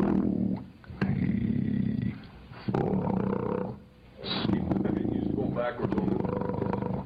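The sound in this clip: A man sings an extremely low F-sharp in a deep, rough, growl-like bass. Several long, sustained, roaring notes are separated by short breaks.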